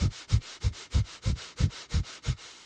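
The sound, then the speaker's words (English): Breath of fire, a rapid yogic breathing technique with equal, shallow inhales and exhales: eight quick, forceful breaths in a steady, even rhythm, each a short breathy puff, heard alone without talk. “And then a breath of fire is still equal inhale and exhale, but it's not fully. So it's just like,”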